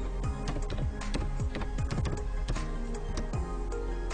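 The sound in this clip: Typing a search for a browser extension on a computer keyboard: many quick, crisp keystrokes in an uneven, busy rhythm, fairly loud and steady throughout, with no talking.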